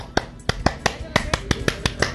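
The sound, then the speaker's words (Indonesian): Indonesian scout clap (tepuk pramuka): many sharp, crisp hand claps struck in a rhythmic pattern, some in quick pairs and others set apart by short pauses, each one bright and percussive. “Salam pramuka, tepuk pramuka.”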